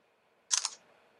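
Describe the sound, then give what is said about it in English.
A phone camera shutter fires once as a picture is taken, a brief crisp double-click snap that stands out clearly against near silence. “So now what we're gonna do is find shutter.”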